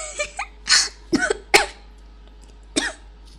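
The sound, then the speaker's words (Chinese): Spluttering, choking coughs from someone gagging on their own saliva: a cluster of harsh bursts over the first second and a half, then one more cough after a short pause. “不好意思，我太激动了，激动的我都要被自己口水呛死了”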